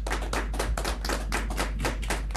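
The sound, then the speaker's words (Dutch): Applause for a clarinet player: many quick, evenly spaced bursts of hand clapping in a steady rhythm, filling the stretch without voices. “We gaan nou vast voor haar applaudisseren, hè?”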